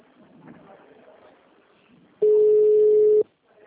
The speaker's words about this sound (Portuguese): Atendimento digital. Após o sinal, digite o ramal desejado ou aguarde.